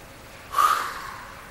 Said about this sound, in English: Here, he's going to breathe in. Nose. Here, he's going to breathe in.